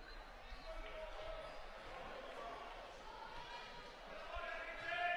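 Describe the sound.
Basketball dribbled a few times by a right-handed shooter before a free throw in a Westwood vs Houghton game, faint bounces under commentary and a low crowd murmur.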